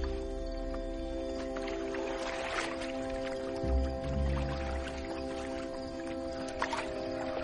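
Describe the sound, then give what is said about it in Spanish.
Quiet water sounds of a rowboat being rowed slowly up to a jetty at night: soft lapping and drips over a low steady hum, with a few heavier dips of the oars near the middle, faint throughout. “Luego, ya es de noche cerrada. Llega despacio y a remo hasta un embarcadero.”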